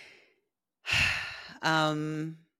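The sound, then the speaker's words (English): A person takes a deep breath: a sharp, airy inhale followed by a long voiced sigh on the exhale, with a faint breathy sound at the very start. “So I'm just going to take a moment and just take a deep breath for a second.”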